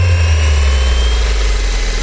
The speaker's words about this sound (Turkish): Dikey kalkış ve iniş kabiliyetine sahip. Kompakt yapısı ve farklı görev yüklerine uyarlanabilen mimarisiyle dikkat çekiyor. Türkiye'nin ilk silahlı mini insansız helikopter sistemi Dumrul özellikleriyle göz dolduruyor.